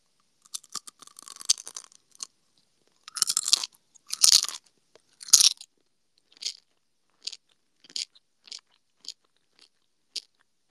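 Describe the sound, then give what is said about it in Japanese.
Crisp crunching and chewing of crunchy gummy candy, recorded on a binaural dummy-head microphone: a dense cluster of brittle crackles gives way to many loud, separate crunchy bites and chews, with no talking. “これもじゃあちょっと、食べていきたいと思います。はい。グミッツェル。”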